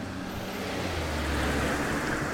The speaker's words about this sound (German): Ja, es fahren viele Leute aus Werneck heraus.